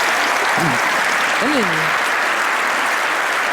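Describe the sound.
Audience applause at the close of a talk at a community conference: dense, steady clapping that holds at an even level throughout, with a voice briefly speaking over it early on.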